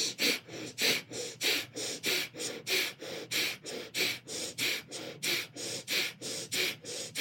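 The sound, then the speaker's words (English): Rapid, forceful breath of fire through the nose, pumped from the navel during a kundalini yoga ego eradicator exercise, with many sharp, even exhalation bursts at a steady, fast pace, about three per second, and no talking. “you're going to breathe the breath of fire through your nose, pumping your navel. It's going to sound like this.”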